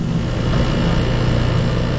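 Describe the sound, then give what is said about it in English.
Constant mechanical drone from lab equipment calibrating sensors that measure gas stove emissions in a Stanford University lab. It is a broad, even hum with no voices and no change in level. “This is the sound of Rob Jackson calibrating sensors at his lab at Stanford University. He measures emissions from gas stoves.”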